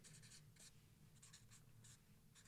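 A marker squeaks across paper in many short, scratchy strokes, coming in quick uneven bursts with brief pauses, faint and steady throughout.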